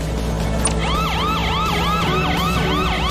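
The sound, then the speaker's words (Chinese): A video game vehicle's electronic siren, switched on, wails loud and continuous in rapid rising-and-falling sweeps that repeat at an even pace, with no talk. “小心，前面有大象，把警笛打开。”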